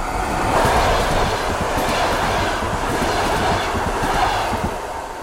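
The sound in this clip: Train passing through a station, a loud continuous rushing roar with a rapid clickety-clack of wheels over the rails, holding steady the whole time and dropping slightly at the close.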